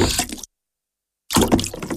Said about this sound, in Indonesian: Dia segera mengambil kerikil itu satu persatu dan memasukkannya ke dalam wadah itu.